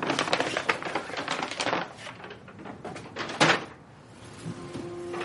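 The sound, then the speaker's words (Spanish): A dress being pulled out of a paper bag: dense crackling and crinkling of stiff paper, busiest at first, then a sharp rustling burst before it tapers to quieter handling. “saca un vestido de una bolsa de papel”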